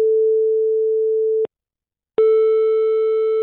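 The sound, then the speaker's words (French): Telephone line tone while placing a call to a guest: a steady, low electronic tone holds for about a second and a half, breaks off into a short silence, then returns slightly brighter and continues to the end. “Donc maintenant, on va appeler Adjer Bouzidi, une skateuse”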